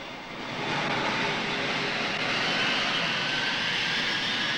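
Airplane jet engines roar as the plane moves along a taxiway. The roar swells within the first second, then holds as a loud, steady rush with a high-pitched whine on top.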